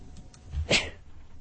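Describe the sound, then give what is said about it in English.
A single sharp sneeze from a person in the middle of a lecture, one brief explosive burst after a softer lead-in, with near quiet before and after. “Excuse me. Please excuse my sneezing.”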